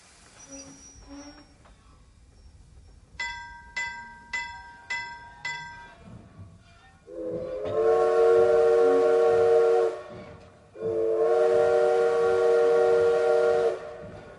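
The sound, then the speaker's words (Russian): A railway station bell rings in a quick series of sharp metallic strikes. Then a steam locomotive whistle sounds two long, loud, steady blasts with a reedy, breathy tone, separated by a short pause. “Резкий звон вокзального колокола и печальный паровозный гудок известили о приближении поезда”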